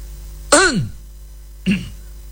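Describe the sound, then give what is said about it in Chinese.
A storyteller's voice imitates a man clearing his throat: two short, harsh vocal bursts, the first louder with a falling sweep of pitch, the second briefer, with quiet between them. “西门庆来了，穿过他这个门市茶房，一进这后院，西门庆先弹嗽了一声”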